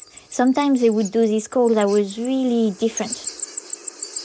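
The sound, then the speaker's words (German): A parent bird sitting alone on its eggs in the nest gives unusual calls: a few harmonic, gliding calls, then a rapid, regular series of short, high chirps. “Und da habe ich gemerkt, dass manchmal, auch wenn nur ein Elternteil allein mit den Eiern im Nest war, es diese Laute geäußert hat, die ganz anders klangen als sonst.”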